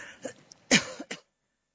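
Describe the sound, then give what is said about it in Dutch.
A person clears their throat and coughs from a tickle in the throat: a short run of a few rough, raspy hacks with one louder cough in the middle, then silence. “Ik heb een beetje een kriebel in mijn keel.”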